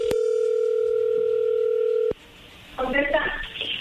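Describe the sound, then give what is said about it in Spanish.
A telephone dial tone plays while a call is being placed: a steady, loud, unbroken tone for about two seconds that cuts off abruptly. After a short quiet gap, a voice is heard. “Bueno, pues vamos a llamarle, ¿no? O sea, y a ver qué pasa.”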